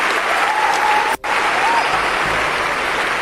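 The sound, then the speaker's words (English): A church audience applauds people returning to their seats during a service. The clapping is loud and continuous, broken by one very brief cut midway, with a thin steady tone above it. “Clap for them as they go back to their seats.”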